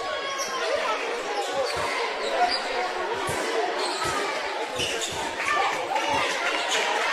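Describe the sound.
A basketball is dribbled up the court during a game, its repeated low, thumping bounces running under a commentator's talk and steady crowd noise.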